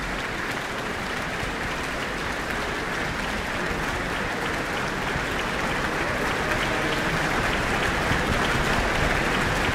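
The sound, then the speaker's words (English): An orchestra audience applauds after the Auckland Philharmonia performs Beethoven's Second Symphony in D major. Thick, sustained clapping holds evenly loud throughout as the conductor returns to the stage. “And there's a very appreciative audience who have called music director Giordano Ballincampi back to the stage, and he is, of course, acknowledging the orchestra.”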